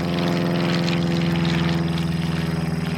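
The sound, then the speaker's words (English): An aircraft engine drones in flight, apparently a propeller type, as the plane flies from Spain into Portugal: a steady, low, harmonic hum with a faint rhythmic pulsing, alone and unchanging. “once she's on the aircraft and they're flying from Spain into Portugal towards Lisbon”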